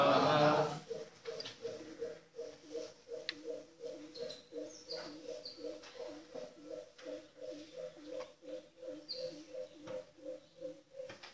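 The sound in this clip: A bird calls over and over, giving many soft, low hooting notes in a steady rhythm. The calls are faint, with a short louder burst of noise at the start.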